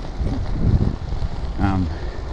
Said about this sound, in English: There's a very slight headwind, which is making it a little bit harder than I would like